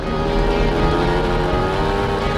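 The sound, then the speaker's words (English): A dirt bike engine speeding along a highway gives a steady, loud, unbroken drone with a constant tone from start to finish. “Mud leaps off the boat and jumps on the dirt bike. Mud speeds along the highway, cradling Ellis in his arms.”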